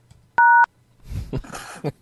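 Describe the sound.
A single telephone keypad tone from the pound key, pressed while recording a name during voicemail setup, sounds as a short, steady, loud beep; a voice then speaks.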